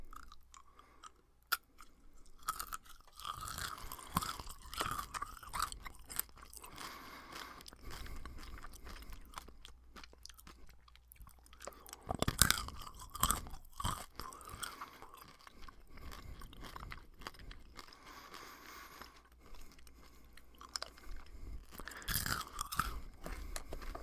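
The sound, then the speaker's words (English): Crunchy snacks eaten straight from a bag: loud, crisp crunching and chewing bites repeat throughout in an irregular rhythm, with some heavier bursts of crunching standing out among softer chewing. “I'm eating them straight from a bag, so let's start.”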